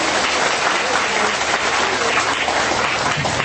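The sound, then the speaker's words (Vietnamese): Dense, steady applause from a Buddhist audience, a continuous wash of many hands clapping at an even loudness throughout without any break. “xin cho phật tử bên Úc cho một chàng pháo tay.”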